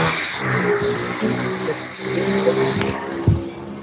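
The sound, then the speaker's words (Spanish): A motorcycle passes along a street in a residential neighbourhood, its engine a steady buzzing drone with a sharper thump near the end. “Acaba de pasar una moto. Sí, acá por mi barrio, sí. O algo por el estilo. Sí, una moto.”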